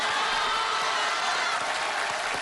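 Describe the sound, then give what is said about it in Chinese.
Applause from a crosstalk comedy audience, a dense, even hiss of many hands clapping that fills the short clip at a steady level. “各位您别鼓掌”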